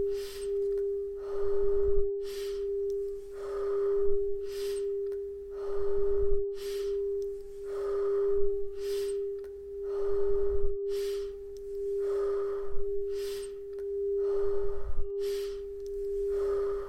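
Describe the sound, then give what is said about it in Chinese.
Slow, steady breathing in and out during a breathing and meditation exercise, many soft, regular airy breaths over a constant low, pure humming tone that runs throughout. No speech. “吸气，吐气，吸气，吐气，吸气，吐气。”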